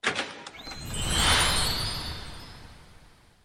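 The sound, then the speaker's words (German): A magical swelling whoosh with shimmering high tones marks a golden fairy-tale gate opening. It rises to a soft peak, then slowly fades away on its own. “Und nun öffnet sich das goldene Märchentor und wir hören die Geschichte von Aladdin und der Wunderlampe.”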